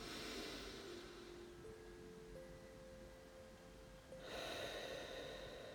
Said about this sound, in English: breathe out, again, one last time,